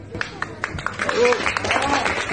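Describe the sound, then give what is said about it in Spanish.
Shoppers applauding employees as a supermarket closes for good after 26 years, a few spaced claps at first, then people talking over continued clapping. “Pero bueno, no, pobre, estaban aplaudiendo a los empleados. Tristísima la cita, anunciando el cierre.”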